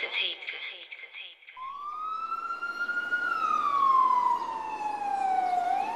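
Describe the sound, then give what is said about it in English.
An emergency vehicle siren starts up after a short stretch of traffic noise, rising into a loud wailing tone and then sliding slowly down in pitch, over the rumble of road traffic. “The number of emergency vehicles says everything about just how serious this incident was.”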